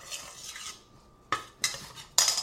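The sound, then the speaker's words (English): A utensil scrapes and clinks against a bowl while mixing a moist brown sugar mixture for Congo bars. Soft scraping comes first, then a quiet pause, then three sharp clinks in quick succession. “So get it all mixed up really well. Squash out the dry spots of brown sugar till it's all sort of moist.”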